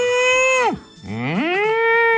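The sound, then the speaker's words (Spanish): A cow-moo sound effect gives two loud, drawn-out moos: the first holds steady, then drops sharply in pitch, and after a short dip the second rises from low and settles into a sustained tone. “La vaca. Mira vos, qué bien, con el efecto de sonido a mí me encanta esto.”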